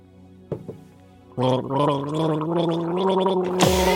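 A person gargles a sip of drink while carrying the melody of a German children's song, producing a bubbling, wavering tune of sustained gargled notes after a couple of short sounds.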